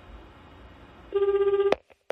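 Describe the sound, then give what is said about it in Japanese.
A telephone ringing on an outgoing call: a steady, buzzing trill tone pulses rapidly for about half a second, then is cut off by a sharp click, followed by a couple of faint small knocks. “それでは電話してみましょう。ピーポーパーポーパー、ぐるるるるるるるる。”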